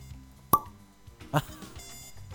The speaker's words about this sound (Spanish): Ah, este momento. Destapaste.